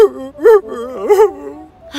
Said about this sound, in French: Mais c'est toi qui pleures, là, papa.